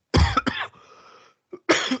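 Harsh throat clearing and coughing: two sharp coughs close together, a low rasping rumble, then one more rough cough after a short pause. No speech is heard.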